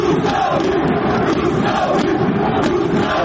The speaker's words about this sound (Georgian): ასე სკანდირებდნენ რუსთაველი გულშემატკივრები საკუთარ გუნდს, როცა მატჩი რუსთავის გამარჯვებით დასრულდა.